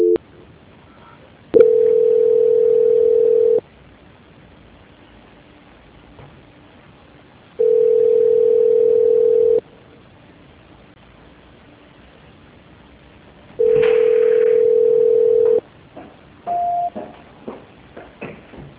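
Ringback tone on a telephone line while waiting for an extension to answer: three steady, mid-pitched tones about two seconds each, separated by long quiet gaps and followed by a few faint clicks.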